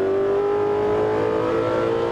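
Race car engine on a track accelerating to full throttle, a loud, sustained drone with a strong steady tone and dense harmonics throughout, heard alone.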